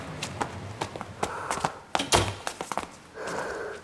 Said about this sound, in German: klopf dir mal die Schuhe ab. Du trägst sonst den ganzen Schnee ins Treppenhaus.